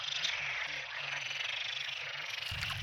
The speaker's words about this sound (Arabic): هلق هو أغلبه مشهد غير مألوف، أصوات نقيق تتصاعد من محمية صغيرة في سهل الغاب.